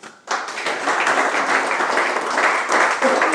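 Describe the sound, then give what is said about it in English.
Audience applause at a beer and food festival event: dense, continuous clapping starts abruptly after a brief hush and holds at a steady, even level to the end. “we've got a round of applause on them”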